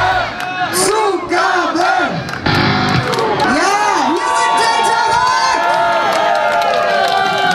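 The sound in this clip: A crowd cheers, whoops and bellows at the end of a live rock gig by a house band, loud overlapping shouts with a brief lull before the roar resumes and holds steady.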